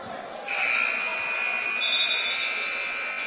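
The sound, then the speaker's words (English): A high school basketball game's buzzer sounds for a substitution, a loud, steady high-pitched electronic drone that starts abruptly and holds for nearly three seconds. “And buzzer sounding here.”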